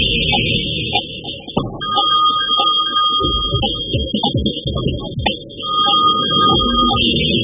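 An unanswered telephone rings with a thin electronic tone in two long stretches, separated by a pause and layered over other ongoing background sound.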